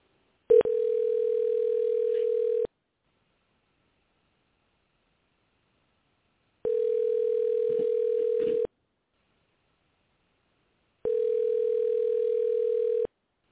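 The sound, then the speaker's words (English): Telephone ringback tone on an outgoing call: three steady, long buzzing tones of about two seconds each, separated by longer silent gaps. No one speaks. “It's ringing.”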